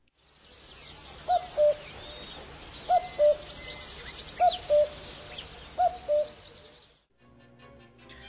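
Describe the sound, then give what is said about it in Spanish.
A real common cuckoo calls four times, each call a higher note dropping to a lower one, at steady spacing over a dense wash of insects and other birdsong. “A ver, comprobemos y escuchemos un cuco de esta vida real.”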